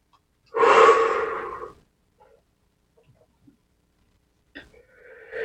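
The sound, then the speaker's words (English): One long, deep breath fills the first seconds, loud and breathy, during a guided relaxation session. Near-silence follows with a few faint soft sounds. “Deep breath.”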